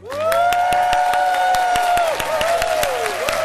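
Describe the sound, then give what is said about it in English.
A live audience at Contra Costa College in San Pablo applauds and cheers, with dense, steady clapping that holds loud from start to finish. “As you can hear, we have a live audience here, and we are delighted to be here at Contra Costa College.”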